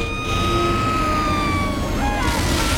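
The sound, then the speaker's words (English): Fire engine siren racing toward a fairground fire: a continuous wailing tone whose pitch slowly sinks, loud over a dense, rumbling, noisy background throughout. “In the distance, he spots a fire engine racing towards the fairground.”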